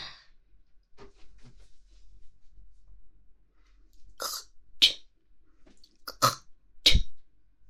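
Someone clears their throat and spits phlegm, giving several sharp, harsh bursts in the second half. Before them is a quiet stretch with only faint rustling.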